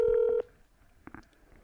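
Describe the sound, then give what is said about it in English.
Electronic keypad tone of a telephone number being dialed: one loud, steady beep lasting under half a second, followed by faint low background noise with a few soft clicks. “So I'm about to call Zach and pretend to be a phone sex operator.”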